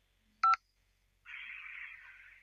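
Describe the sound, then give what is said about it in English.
A single short telephone keypad tone, dialing 5 to accept a recorded collect call from a federal prison, then a quiet pause and a faint, steady hiss. “Hang up to decline the call or to accept, dial 5 now.”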